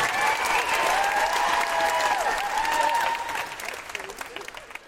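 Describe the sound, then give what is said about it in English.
Audience applause for the cast at the close of a live Amnesty show: dense, sustained clapping that holds steady for several seconds, then thins into scattered individual claps near the end. “A big round of applause for our incredible cast and yourselves, the best audience of your generation!”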